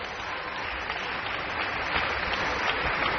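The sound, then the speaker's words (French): A concert audience applauds at a classical performance with a choir and national orchestra, calling the performers back to the stage. Dense, loud, continuous clapping sustains evenly and swells slightly toward the end. “Et un public qui n'est pas prêt de s'en aller, vous l'entendez.”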